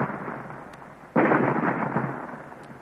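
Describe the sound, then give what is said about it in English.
A sudden loud blast as a weapon fires on a rock in an old-time radio drama, bursting out of a quieter hiss and trailing into a long, heavy rumbling roar as the rock splits apart. “They have found the range, Commander. You may fire. Fire! Look, the rock is splitting.”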